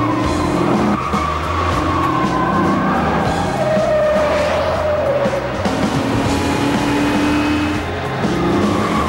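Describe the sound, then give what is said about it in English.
Loud, continuous engine roar and long wavering tire squeals as cars speed and slide through traffic on wet roads during a chase, with the skids rising and falling in pitch. “They weave in and out of traffic, sliding on the wet roads.”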